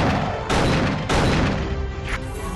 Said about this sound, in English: You also hear this like really low. That's a zombie. That's a big zombie robot. Welcome to your death.